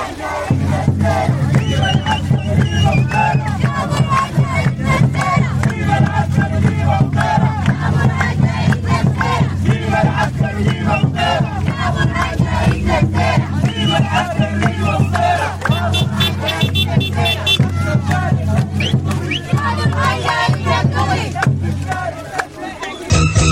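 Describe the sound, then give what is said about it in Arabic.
A crowd of protesters marching from Atbara to Ad-Damir in Sudan chants slogans demanding civilian rule and denouncing military rule, a loud, massed rhythmic chanting and shouting that continues throughout. “وانطلقت مواكب عطبرة إلى الدامر مرددة هتافات تطالب بالحكم المدني وتندد بالحكم العسكري. وردد المشاركون في الموكب هتافات”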